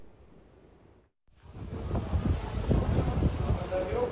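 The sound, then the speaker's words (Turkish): Strong storm wind gusting in Istanbul, strong enough that trees seem ready to uproot: after a short quiet gap comes a loud, steady roar of rushing, buffeting noise with deep rumbling gusts that persists to the end. “Aşırı bir rüzgar var. Ağaçlar yerinden çıkacak sanki.”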